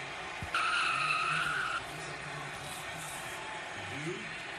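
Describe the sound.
Race car tires skid and squeal as a stock car spins out during a road-course race in Texas: a loud, sustained high screech lasting over a second, set against continuous engine roar that settles into lower engine tones.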